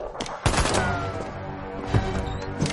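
Repeated gunshots from a scene in an action thriller film where a man is disarmed and shot, a few sharp, loud cracks over a dense, continuous backdrop.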